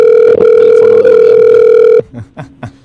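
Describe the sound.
Telephone line tone on an outgoing call: a steady, loud, unbroken electronic tone holds for about two seconds, then cuts off and gives way to a few short, fainter sounds.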